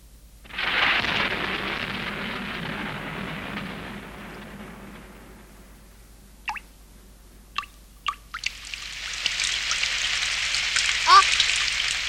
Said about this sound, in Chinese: 下雨喽